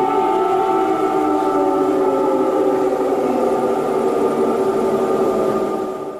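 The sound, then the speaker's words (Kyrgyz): Civil defense air raid warning siren sounding in wartime Ukraine: a loud, sustained, droning tone with layered harmonics that holds steady throughout, tapering slightly at the very end. “Дагы бир көңүл бурчу жагдай бул аба чабуулу тууралуу эскерткен сиреналардын добушу.”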